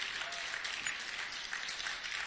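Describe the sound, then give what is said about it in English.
A live audience claps their hands in dense, steady applause that holds at an even level for the whole stretch, many overlapping claps blending into a continuous patter. “Will we clap our hands for the live audience?”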